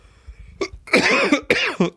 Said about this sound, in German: Oh, hustest du, bist du krank?